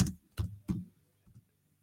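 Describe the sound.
Computer keyboard keys are tapped in a short burst, three sharp clicks in quick succession followed by a couple of fainter taps, with no voices present.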